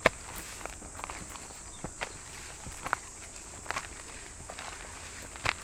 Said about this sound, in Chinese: 就从我们这个走路的声音也能分辨出来，这地确实是比较干的。